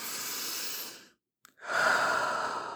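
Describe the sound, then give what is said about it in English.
Deep, slow breathing: two long, airy breaths, the second fuller and louder, separated by a short silent pause with a faint catch of air between them. “Open up your lungs and breathe.”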